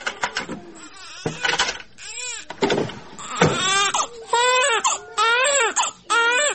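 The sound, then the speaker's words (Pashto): A baby cries in a room while being soothed, giving many loud, wailing bursts with short breaths between them. The cries rise and bend in pitch and continue almost without pause throughout. “دلته په کوټه کې ماشوم آراموم.”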